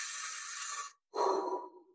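A person's deep breath: a long, hissy inhale lasting about a second, a short silent pause, then a lower, breathier exhale that fades out.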